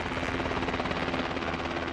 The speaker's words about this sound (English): the chopper circles just a few hundred feet overhead.